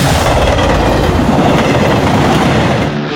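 Train cars clatter over the rails in a loud, steady sound effect: a dense rumble and rattle holds unbroken for about three seconds, with no voices.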